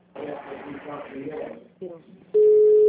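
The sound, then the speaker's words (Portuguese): A telephone tone sounds as someone places a call to another person. People talk at first, then a steady, loud, unbroken mid-pitched tone starts and holds to the end. “Não, tem alguém ligando pra alguém. Quem tá ligando aí?”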